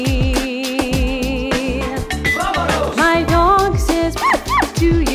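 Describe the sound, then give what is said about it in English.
Dog howling and yipping over an upbeat birthday song, with several short rising-and-falling whimpering cries sliding above the music in the second half. “My dog says, awoo!”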